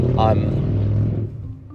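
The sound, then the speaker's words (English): Steady low rumble of car interior noise while driving, a dense droning hum filling the low end throughout, with a brief voice-like tone near the start. “Apologies for the background noise there. I'm just in the car again, as you can imagine, because I think 90% of my podcasts are recorded in the car.”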